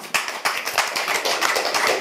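Restrained audience clapping from a small crowd: many quick, soft claps in an uneven patter that holds steady for the whole stretch, with no talking over it.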